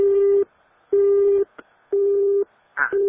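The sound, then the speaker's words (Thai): A phone line's busy tone follows a dropped call. Steady, mid-pitched beeps repeat at an even pace with equal gaps between them, and small clicks fall in a couple of the pauses. “งั้นเดี๋ยวสายคุณคุณสันหลุดไปนะคะเดี๋ยวจะโทรเข้าไปใหม่นะคะ”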